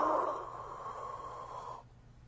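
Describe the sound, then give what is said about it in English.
Breathing in through an inhaler: a steady, airy hiss of inhaled breath lasts nearly two seconds before cutting off, with no voices. “So, get your inhaler. All right, shake it up. All right, now, what I want you to do is I want you to take a deep breath and then breathe out. Put it up to your mouth and go.”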